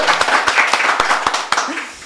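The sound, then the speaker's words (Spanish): An audience applauding with a clear, steady beat of sharp claps about four times a second, over a dense background of noise. “Es la primera vez que el foro nos aplaude, creo.”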